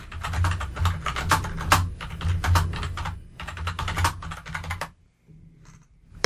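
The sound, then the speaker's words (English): Rapid clicking of keys on a computer keyboard as someone types a Google search, a steady clatter of keystrokes running for about five seconds before falling quiet. “hold on, let me Google it so I don't sound like an asshole.”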